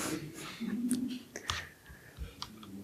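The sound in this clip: Computer keyboard keys pressed while reviewing and undoing code changes in a Git session: a few faint, quiet clicks spread unevenly across a short stretch, with a soft voice faintly present.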